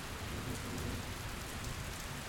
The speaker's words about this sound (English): The rain is pretty relaxing, isn't it? I don't actually mind the thunder. It's just felt a little bit close.